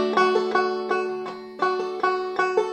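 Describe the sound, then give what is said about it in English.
A clawhammer banjo plays a bum-ditty rhythm, with the index finger striking down on the strings and the thumb catching the fifth string. Bright plucked chords repeat in a steady, bouncing pattern with nothing else heard. “You use your index finger as a hammer to downstroke on the strings, and then your thumb catches the fifth string in a little rhythm we call a bum ditty. It sounds like this.”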